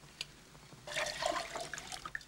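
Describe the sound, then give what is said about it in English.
Murky water splashes and trickles as it is poured into glasses. A soft, steady liquid rush starts about a second in and runs to the end, with a few brighter splashes and no voices. “pours the water into glasses”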